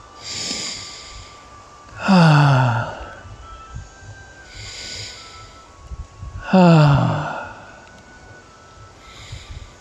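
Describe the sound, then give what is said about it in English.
Slow, deep breathing: quiet hissing inhales alternate with loud, voiced, sighing exhales that drop in pitch, repeating at a steady, unhurried pace with no talking between them. “Why don't we celebrate how special it is by having 3 deep breaths?”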